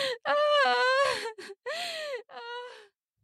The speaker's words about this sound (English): He enters. The push in causes a groan from both.